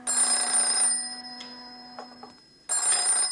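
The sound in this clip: A telephone rings in two loud, trilling bursts separated by a short silent pause.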